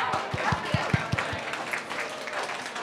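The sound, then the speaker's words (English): Applause from the audience at a live panel event on loneliness, greeting the guests: dense, steady clapping with a run of soft low thumps early on. “Can we give a round of applause to our guests,”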